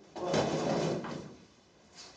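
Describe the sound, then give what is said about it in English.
A door being opened: a scraping, sliding rush lasting about a second, a softer follow-on noise, then a faint brief sound near the end. “Open the door yourself. I'm stepping back from the door. You can open it.”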